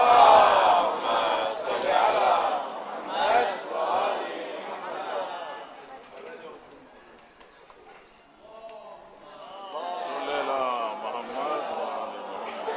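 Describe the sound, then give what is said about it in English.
A crowd loudly recites salawat in unison to welcome a play's director at a community event. The massed voices are strong at first, thin out midway, then swell again toward the end. “Please welcome her with a loud salawat.”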